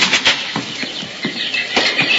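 Many caged birds kept together in a room make a busy mix of chirps and flutters, quick repeated bursts that continue throughout at a fairly loud, even level.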